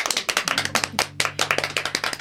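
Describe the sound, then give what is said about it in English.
Audience clapping in a room at a jazz performance: many sharp, distinct claps in an uneven, overlapping rhythm, with a low steady tone sustained beneath them through most of the stretch. “Oh, it's just nice that there's lots of women in this room, you know, doing some clapping.”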